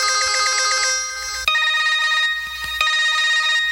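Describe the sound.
A mobile phone rings with a loud, bright electronic ringtone that repeats its melodic phrase over and over, sounding alone without any voices.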